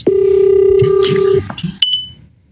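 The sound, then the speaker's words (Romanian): A phone rings with an incoming call: a loud, steady electronic tone holds for about a second and a half, then one short, higher beep follows, with people talking in the background. “stai un pic că mă sună Ale”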